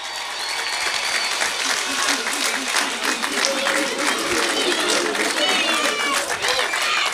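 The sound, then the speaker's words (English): Crowd applauding and cheering for the All-Ireland champions at a stage event, steady dense clapping sustained throughout with shouts mixed in. “Make some noise while Garen's getting set up. You're 2026 All-Ireland champions. And make some noise for Mr. Garen Noon.”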